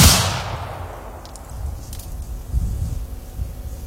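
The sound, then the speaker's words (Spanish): A rifle volley fired on command during military training: one sharp, loud report at the very start that quickly decays, followed by low, rumbling noise. “¡Apunten! ¡Listo! ¡Fuego!”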